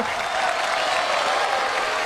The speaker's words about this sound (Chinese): 此时可以有掌声